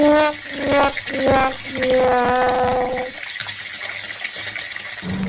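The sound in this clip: Water runs from an open tap as a steady rushing hiss, with voices talking over the first half before the flow continues almost alone.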